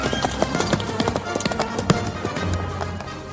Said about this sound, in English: And he gallops off with the theme